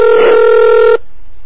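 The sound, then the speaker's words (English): A telephone-line tone from a call dialed up with HyperTerminal software: one steady, buzzy electronic tone with bright overtones holds for about a second, then cuts off abruptly into near silence. “Now this one should pick up. I dialed up into this phone using Hyper Terminal.”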